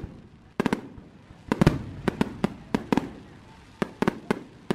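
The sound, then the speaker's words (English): Fireworks exploding outdoors: many sharp, loud cracks at irregular intervals, some in quick pairs or clusters, over a low, faint background rumble. “And yeah, you'd see and hear bottle rockets. And maybe, just maybe, if somebody you know went to Indiana or Ohio, you might even have experienced this.”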